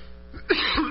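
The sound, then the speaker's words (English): Coughing from someone nearby: a few short, rough coughs in quick succession, fairly quiet, with no talk over them. “I don't know where this coughing is coming from.”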